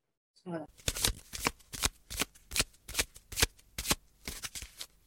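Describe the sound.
Tarot cards being shuffled before a draw, many crisp papery riffles and slaps arriving in a quick, uneven rhythm, each a sharp bright burst separated by brief pauses.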